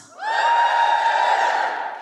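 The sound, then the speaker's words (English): Cheering from LGBTQ+ audience members at a live show: a loud, sustained whooping cry that rises at the start and then holds steady on a high pitch for nearly two seconds, with no talk. “Just give us a cheer if you in the audience are LGBTQ+.”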